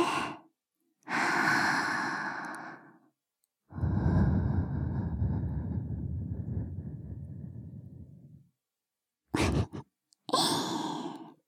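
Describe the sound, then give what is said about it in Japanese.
Soft breathy blowing into the listener's ear, several long gentle puffs of air separated by pauses, with short airy bursts near the end; no talking. “女の子にお耳ふうふうされるの気持ちいいでしょ。”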